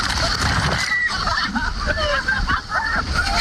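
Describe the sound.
A big high-tide wave crashes against a seawall in rough wind, giving a dense, surging wash of splashing water. Voices can be heard over the water noise.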